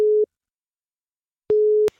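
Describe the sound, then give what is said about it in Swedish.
Telephone ringback tone as a call goes through: a steady, low-pitched electronic tone is cut off shortly after the start, then sounds again after a pause of over a second for a slightly longer burst. “Ring den andra, Sofia. Ja, här ringer Sofia Holmberg. Nu. Så, nu går det fram.”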